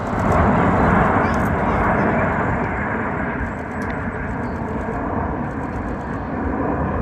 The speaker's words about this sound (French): Ce que vous entendez là, c'est la patrouille de France qui était dans le ciel new-yorkais tout à l'heure, Liberté 250.